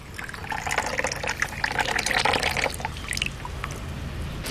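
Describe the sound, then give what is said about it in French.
Water is poured to make matcha, a Japanese green tea, giving a steady splashing and trickling flow that lasts several seconds at moderate loudness and tapers off at the end. “Donc là, vous allez mettre de l'eau.”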